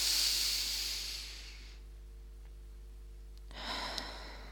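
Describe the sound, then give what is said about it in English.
A big deep breath in through the nose and out through the mouth: two long, airy hisses separated by a quiet pause, over a steady low hum. “Let's start with a one-breath meditation by taking a big deep breath in through the nose and out through the mouth.”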